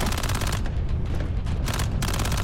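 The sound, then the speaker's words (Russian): Loud, rapid gunfire as soldiers in trenches shoot at advancing infantry during a tank battle in a war film: dense overlapping bursts of automatic fire rattle on without pause. “Поднявшись, бойцы расстреливают пехоту.”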